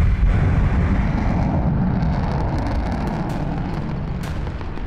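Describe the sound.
Missile explosions from a space-ship battle sound effect form a loud, sustained low roaring rumble that holds steady for about five seconds, with a faint crackle on top and no voices.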